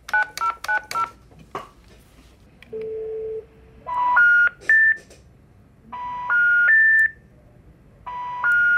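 A telephone number is dialled to call the Socialist Party. Rapid keypad beeps come first, then a long low tone, followed by repeated sequences of three rising electronic tones.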